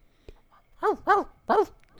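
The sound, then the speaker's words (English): A dog in a video game barks three times in quick succession: loud, mid-pitched, harmonic barks, with no talk over them. “Oh, sir, hey, look, there's a dog over there.”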